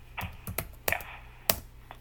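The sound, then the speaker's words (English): Sparse typing on a computer keyboard, someone entering "any desk" into the middle of the Google page: a few separate, sharp key taps spread unevenly over a quiet background. “All right, now type there, any desk, in the middle.”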